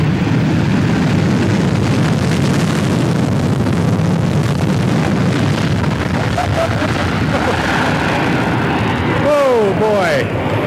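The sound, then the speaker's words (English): A British Airways Concorde supersonic airliner touches down at an airfield with a loud, continuous roaring rumble that holds throughout, with voices mixed beneath the engine noise. “a touchdown at 6:10:10 is the touchdown time at Whitman Field, the British Airways SST Concorde. Boy, what a beautiful plane. Listen to this thing.”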